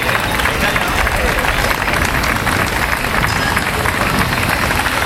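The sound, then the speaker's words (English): Applause from the Spanish delegation at a ceremony in Gibraltar: a dense, continuous wash of many hands clapping, loud and steady for the whole stretch with no clear individual claps. “And a round of applause from the Spanish delegation as well.”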